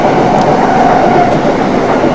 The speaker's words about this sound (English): Ignore the train.